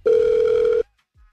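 A telephone ringback tone on an outgoing call: one steady, loud electronic burst lasting under a second, then silence with a faint low thump near the end.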